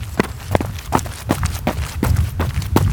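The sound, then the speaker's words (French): Footsteps of people starting a light jog: many quick, evenly spaced footfalls in a steady running rhythm over a low, continuous background rumble. “On va un petit peu trottiner pour se préparer.”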